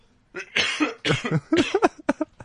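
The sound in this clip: Someone with an itchy throat coughs in a rapid run of rough, raspy bursts, loud and harsh, ending with a few shorter hacks.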